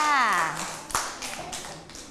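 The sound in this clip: Children clapping hands in a classroom to cheer a classmate after a guessing game; a woman's voice opens the moment, then a few light, scattered claps follow at moderate loudness.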